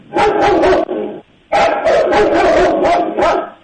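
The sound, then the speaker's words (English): A dog barking loudly in rapid volleys, a short run of barks, a brief pause, then a longer burst of quick, rough barks. “It's a dog.”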